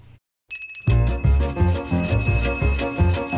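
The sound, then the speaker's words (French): A small servant's bell rings on and on in a thin, high tinkle over music with a pulsing, deep bass line that keeps going throughout. “Du matin au soir, il faut courir dans l'escalier, le monter, le descendre, le monter au ding-ding oppressant de la clochette qui sonne, qui ressonne, qui résonne, qui ordonne.”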